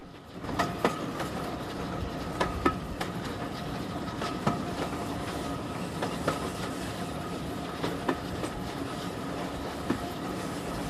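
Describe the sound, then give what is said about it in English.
A train crosses a bridge over a river, giving a steady, dense rolling rumble with many regular clickety-clack wheel beats that continue throughout. “watch the train as it passes above them”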